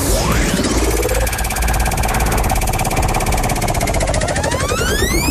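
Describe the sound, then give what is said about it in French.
A big red prize wheel at a game spins and clicks loudly. The ratcheting clicks come in a fast, unbroken stream for the whole stretch, with sweeping synthetic tones rising alongside them. “J'ai une roue en face de moi, une grosse roue toute rouge. Il faut la tourner et tomber sur un jeu.”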